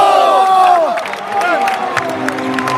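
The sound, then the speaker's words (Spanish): A team huddled on a court loudly cheers and shouts together after the Pozo victory. Many excited voices overlap in a dense, continuous roar with sharper whoops rising out of it. “el sonido de la piña del equipo del Pozo celebrando ese triunfo.”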